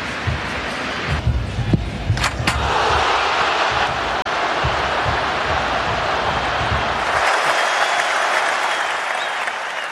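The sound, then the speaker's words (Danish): Stadium crowd roaring and applauding as Messi scores in his final match for the Argentine national team: a loud, continuous wall of cheering and clapping with a few heavy thumps early on. “Jeg forestiller mig, at det er gået vildt for sig, fordi det, der sker her, det er jo, at Messi, han spiller sin aller sidste kamp for det argentinske landshold og scorer”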